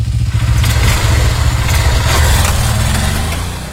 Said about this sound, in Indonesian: Wih, motor baru nih.